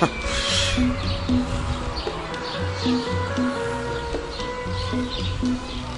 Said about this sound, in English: Standing on my balcony, enjoying the sunshine, listening to all the birds, sparrows mostly.